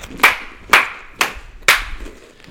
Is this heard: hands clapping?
yes

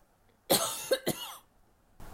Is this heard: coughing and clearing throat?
yes

